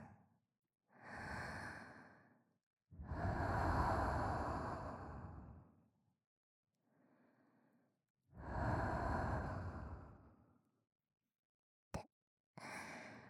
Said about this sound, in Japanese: 私の吐息をかけて、お客さんのお耳を温めていきます。